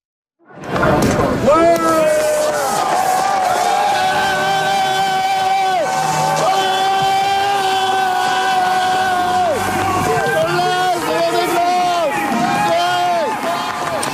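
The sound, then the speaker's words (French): Dense, sustained crowd noise greets Charlie Dalin's record-setting Vendée Globe finish at Les Sables d'Olonne in January 2025, steady and loud throughout, with voices and tonal calls woven into the roar. “On peut d'ailleurs écouter, c'était en janvier 2025, le 14 janvier 2025, l'arrivée de Charlie Dalin au Sable d'Olonne.”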